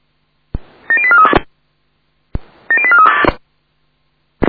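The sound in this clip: A telephone number is dialed to call for salvage at a fire brigade incident: two separate runs of rapid keypad tones, each opening with a sharp click, with a gap of silence between them.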